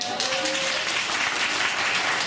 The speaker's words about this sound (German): Mal Applaus.